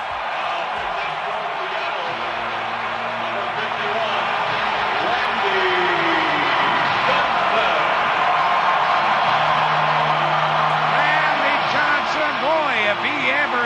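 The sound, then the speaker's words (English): Sustained stadium crowd ovation as pitcher Randy Johnson is introduced: a loud, dense roar of cheering holds steady for the whole stretch, with a voice audible over it. “They're going to go down and get the big guy, Randy Johnson, and listen to this ovation when the Cy Young is called in. Listen to this.”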